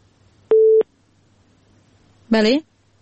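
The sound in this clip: A telephone tone sounds after a caller's line drops on a phone-in: one short, steady, low beep, then after a pause a brief voiced sound.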